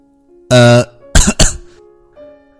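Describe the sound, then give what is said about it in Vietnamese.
Dry coughing: a voiced, throat-clearing grunt is followed by two sharp, rasping coughs in quick succession, then a faint hum. All are loud and alone, with no talk. “Đồng Minh Tồn ho khan mấy tiếng, che giấu cảm xúc của mình.”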